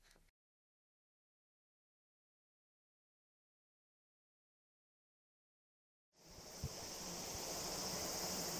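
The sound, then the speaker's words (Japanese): A flowing stream rushes steadily with a high cicada drone above it, heard in late-summer heat at a temple gate; near-silence holds for about six seconds before the continuous water noise starts. “残暑に聞こえるセミの声、流れる小川の音。”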